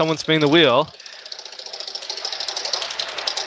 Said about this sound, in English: Oh, someone's spinning the wheel.